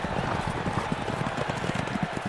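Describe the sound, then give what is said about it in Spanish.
A racehorse gallops on a racetrack at the start of a race. Rapid hoofbeats repeat in a steady, driving rhythm over a dense, noisy background. “Unos instantes más tarde se dio la partida. Alexis tomó inmediatamente la delantera, pero de pronto su caballo tropezó, rodó y Alexis cayó sobre la pista.”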